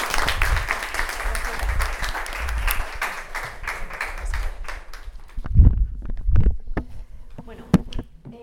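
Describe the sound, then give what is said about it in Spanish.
Audience applause greets a speaker at a talk on menstrual dignity. Dense clapping fills the first five seconds, then thins to a few scattered claps and softer sounds. “Vamos a dar un aplauso a María.”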